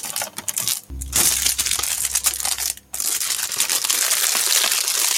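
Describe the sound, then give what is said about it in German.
Plastic shrink wrap is peeled and torn off a new game box, producing loud, continuous crackling and crinkling with sharp tearing bursts and two brief pauses. “Jetzt packen wir gemeinsam ein aktuelles Spiel aus. Noch einfoliert. Erstmal die Folie entfernen.”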